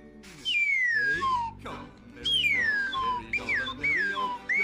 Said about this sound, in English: The number one part of Greek life of at college is the slide whistle.